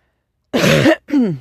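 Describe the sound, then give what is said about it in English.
A person with a strained voice and congested sinuses coughs and clears their throat in two harsh bursts, a longer rasp followed by a shorter one, alone against silence. “I have to apologize for my voice and the excessive coughing.”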